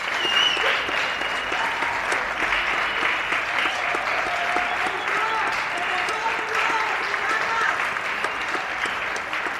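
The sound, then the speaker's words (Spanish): Steady, sustained applause from people in Spain during the 2020 coronavirus outbreak, a tribute to health workers. The dense clapping holds an even level for nearly ten seconds. “de la escucha atenta a lo que los españoles y las españolas dicen en estos aplausos.”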